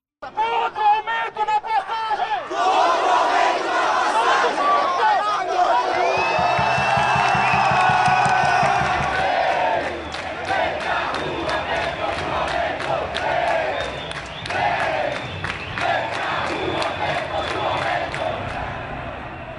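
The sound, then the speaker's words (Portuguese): A protest crowd at a street demonstration in São Paulo in June 2013, with loud massed voices shouting, cheering and whooping, sustained for the whole clip. “Você ouve aí o áudio captado pela TVT numa das manifestações que ocorreram em São Paulo em junho de 2013.”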